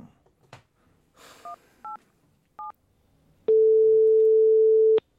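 A phone line after a call is cut off gives three short two-pitch beeps, then a single long, steady mid-pitched tone.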